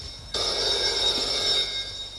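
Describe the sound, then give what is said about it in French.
A telephone rings once: a bright, buzzing electronic ring sounds clearly for a little over a second, then cuts off, with no voices. “Le téléphone sonne.”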